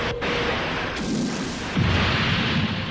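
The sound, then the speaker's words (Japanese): All weapons fire at once with a full-power ultra-bass laser: a dense, continuous roar of blasting noise with deep rumble and a few heavier bursts rising out of it. “全弾発射。 超低音レーザー全開。”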